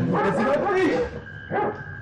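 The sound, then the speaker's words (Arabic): Dogs barking in short, yelping bursts mixed in with people talking, the barks rough and mid-pitched and returning briefly near the end. “ايه اللي جاب الكلاب السعادي؟”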